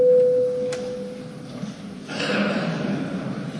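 The Latvian Saeima voting system sounds a single steady electronic tone, pure and mid-pitched, holding for about a second and a half before cutting off. A low murmur of background noise follows.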